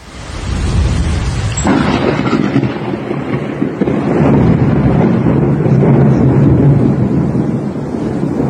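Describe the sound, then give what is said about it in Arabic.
Thunder rolls through a heavy rainstorm in the countryside of Aleppo and Idlib. A sharp crack opens into a loud, sustained low rumble that swells and lingers to the end, mixed with rushing wind-like noise. “هذا صوت رعد أليس كذلك؟ صحيح، هذه صوت الصواعق الرعدية.”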